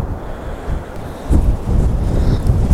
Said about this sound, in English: I'm too close to the edge of this cliff. I'm not safe. Not with this wind.